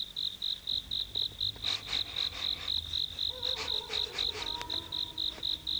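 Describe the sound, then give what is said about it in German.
A cricket chirps close by on a warm summer night, giving a steady, rapid series of short, high, evenly spaced pulses over a soft background. “Die Nacht war sommerlich warm. Ganz in der Nähe zirpte eine Grille.”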